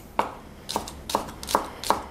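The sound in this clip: Knife chopping spring onions and pickled ginger for a smoked tofu salad: five crisp, evenly spaced strikes on a board, each a short sharp knock, with nothing else heard.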